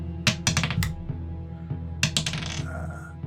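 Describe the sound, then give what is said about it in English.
Dice clatter on a tabletop during a role-playing game, falling off the table after a natural-20 roll: two quick bursts of sharp, hard clicks and rattles, the second trailing into a softer scatter. “I rolled it. It's right here. Oh. I heard like 9 rolls. Did you guys hear 9 rolls? It kept falling. It kept falling off.”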